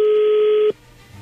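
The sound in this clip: A telephone tone sounds while a prank call is being dialed. It is one steady, loud, pitched beep held for under a second, then cuts off abruptly into quiet hiss.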